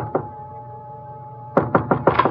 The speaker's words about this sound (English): I went up the stairs, but when I knocked at his door...